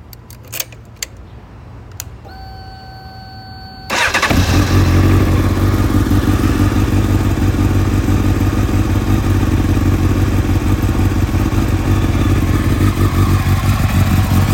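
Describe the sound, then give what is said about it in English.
A motorcycle engine, just back together after an oil leak repair, starts up. A few faint clicks and thin tones come first, then the engine catches and settles into a loud, steady, rough running note that continues to the end. “Needs a wash, but yeah, bike is good. No more oil leak, and it sounds fantastic.”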